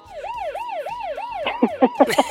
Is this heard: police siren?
yes